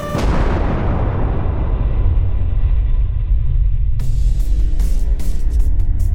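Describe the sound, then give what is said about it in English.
A massive explosion as two spaceships crash into each other in an audio drama: a loud booming burst trails into a long, deep rumble, then a second crackling burst of debris breaks out over the continuing roar. “What was that? Something exploded just off my bow? It looks like 2 ships crashed into each other. At least, I think that used to be a ship.”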